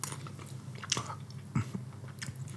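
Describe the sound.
Quiet crunchy biting and chewing of a snack flavored with ginger and pineapple, with a few sharper crunches standing out from soft mouth sounds.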